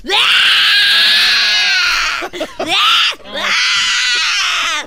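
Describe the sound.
Loud, high-pitched crying and sobbing in three drawn-out wails, broken by short gasping catches between them.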